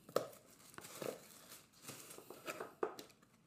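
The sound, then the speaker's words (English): Packaging rustles and crinkles as a cardboard box of succulent plants is unboxed: soft, faint crackles and short tearing bursts come in scattered clusters, with no talk. “So what I'm going to do, I'm going to unbox it first”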